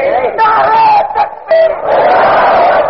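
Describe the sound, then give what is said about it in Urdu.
A crowd at a gathering shouts a slogan in unison: two loud, sustained chanted phrases with a short pause between them. “جب میں کہتے ہیں نیند نہیں آئی, نعرہ لگا, یعنی جو جاگ رہا ہے وہ نعرہ لگا رہا ہے باقی سو رہے.”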